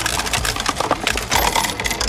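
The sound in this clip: Coins clink and jingle as they drop into a charity collection box during a cold-weather fundraising drive. The metallic clatter is dense and continuous throughout, with no voices.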